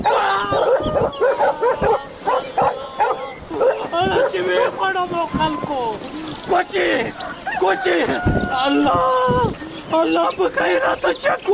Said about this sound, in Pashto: خلکو دا سپی د چا دی؟ وی تړی چې ومې نه خوري.